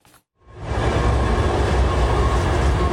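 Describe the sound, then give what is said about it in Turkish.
The historic Venice-Simplon Orient Express train, arriving in Türkiye through Kapıkule station, rumbles in after a brief hush. A loud, steady rolling roar then holds without letup. “Tarihi Venice-Simplon Orient Express treni yılın ikinci seferi kapsamında Türkiye'ye geldi.”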